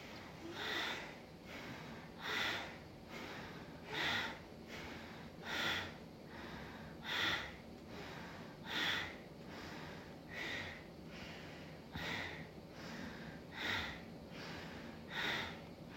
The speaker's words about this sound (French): Et puis de nouveau on bouge la narine gauche, on inspire. Et on expire par la narine droite.